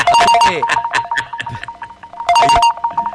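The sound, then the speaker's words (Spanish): A phone rings with an incoming call, its ringtone a quick pattern of high, bright electronic beeps in two short bursts, with people talking over and between the bursts. “Hay una llamada.”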